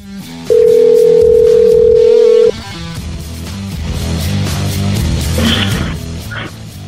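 Telephone dial tone on a line while a call is being placed: one steady, loud, unbroken tone at a single pitch holds for about two seconds, then cuts off into a dense background of other sound.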